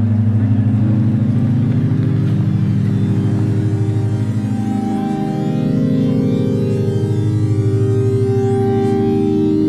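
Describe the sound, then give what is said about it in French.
A car drives onto a university campus: loud, steady low engine rumble with a constant droning tone and little change in level throughout, with no talk. “Nous sommes arrivés sur le campus de l'EPFL. Oui, c'est mieux hein, de ne pas conduire avec un micro à la main.”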